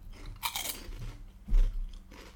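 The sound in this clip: Salty, fatty snacks crunch and are chewed in a few crisp bites and grinding chews. The sound is fairly quiet and there is no talking.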